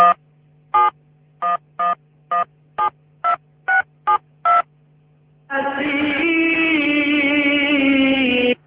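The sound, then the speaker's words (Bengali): Telephone keypad tones as a call is placed: ten short, evenly spaced dialing beeps, a brief pause, then a sustained steady tone that carries on to the end. “আমরা মেহেদিকে এই মুহূর্তে ফোনে connect করছি এবং মেহেদির সঙ্গে আমরা কথা বলবো।”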